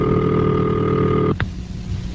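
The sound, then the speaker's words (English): A telephone ringing signal sounds as one steady, buzzy tone held for just over a second before it cuts off abruptly, followed by a brief click and faint line hiss. “This is the ringing signal.”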